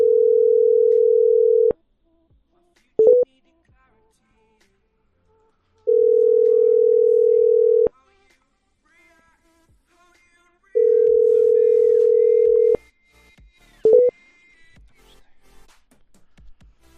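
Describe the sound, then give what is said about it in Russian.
Telephone call tones while dialing a number, three long steady low beeps separated by long silent gaps, with a couple of short clicks between them and faint noise near the end. “И сейчас еще раз попробую Станиславу этому набрать.”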